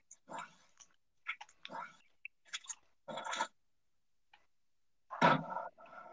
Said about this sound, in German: Ich esse gerade, warte kurz.